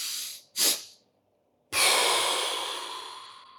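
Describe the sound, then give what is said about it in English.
Quiet breathing exercise: one short, sharp airy breath, then after a silent pause a long hissing breath that slowly fades. “So it's a long inhale with a short inhale.”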